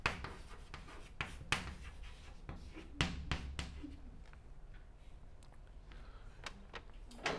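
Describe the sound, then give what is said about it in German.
Faint scratching and tapping of a lecturer writing a short note on the board during a physics lecture, a few sharper taps among quiet strokes. “Ich schreibe Ihnen da als Merkpunkt nur hin Entartung.”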